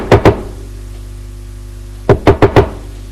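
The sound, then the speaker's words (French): Knocking on a bedroom door, with two quick knocks, a pause, then four more firm knocks at an even pace. “Elle va le voir dans sa chambre. Frappe à la porte”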